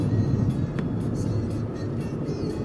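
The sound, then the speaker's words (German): A car drives on a motorway with a steady, unbroken low road rumble and engine drone. There are no voices for the whole stretch. “Ah, das ist die Fahrt auf der Autobahn. Wir kommen jetzt auf die Autobahn”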